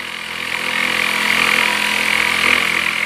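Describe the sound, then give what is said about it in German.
A jigsaw cuts through a board for a changing cubicle, giving a steady buzzing motor whine with a constant droning hum that swells slightly after the start and holds throughout. “Ich säge das hier gleich durch mit der Stichsäge”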